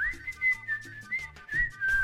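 Whistling of a made-up tune done badly: a wavering, slightly shrill melody in short phrases with brief gaps, heard alone with no talk.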